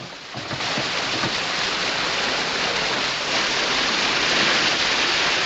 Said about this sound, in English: A sudden cascade of water washes away the blanket.